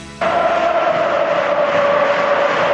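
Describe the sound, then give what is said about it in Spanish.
Football supporters at Valencia's Mestalla stadium cheer during a match. After a moment of quieter sound, a loud, steady crowd roar bursts in and holds, carrying a sustained tonal strand of voices. “Vuelve a animarse el público en Mestalla, tal y como va el partido cuando juega Gerard.”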